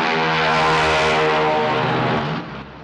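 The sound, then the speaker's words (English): The propeller engine of a small plane drones loudly as the plane speeds down a runway and takes off. The hum is strong and steady, then drops off sharply near the end. “small plane gathers speed on the runway and takes to the air, leaving a cloud of dust in its wake.”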